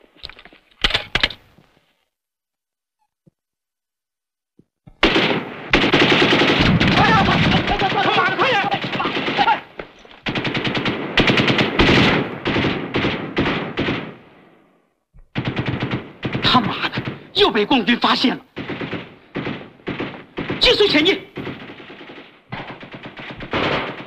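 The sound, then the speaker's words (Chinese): Machine-gun fire in a war-film battle scene: a short burst, a pause, then two long stretches of rapid, loud rattling with a brief gap between them. “注意，准备射击。”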